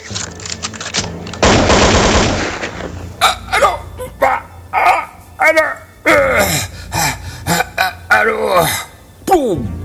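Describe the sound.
Gunfire sound effect in a drama: a dense, rapid burst of automatic shots, followed by several voices speaking in short phrases.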